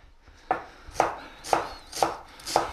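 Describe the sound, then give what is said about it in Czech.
A knife chops an onion into fairly coarse pieces: five crisp, evenly spaced chops about half a second apart, heard alone without talking. “Nakrájím si cibulku, takovou trošku polohrubou,”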